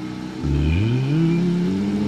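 Rising engine-like drone of a hoverbike with two large propellers lifting off, filmed from far away. A loud, steady whir climbs in pitch as it starts, then holds and edges higher, with no voices.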